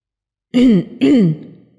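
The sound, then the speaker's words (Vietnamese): Dry throat clearing from one person, two loud rasping bursts in quick succession, the second trailing off into a soft fade, with no talk around it. “Y Tiên ho khan hai tiếng, tiến lên giải vây nói”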